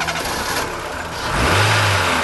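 A vehicle engine starts and revs up, with a low rumble that grows louder about halfway through and stays strong to the end.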